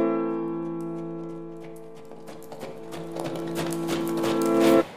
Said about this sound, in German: Kurz darauf reitet der französische Kaiser an der Spitze seiner Garde durch das Brandenburger Tor.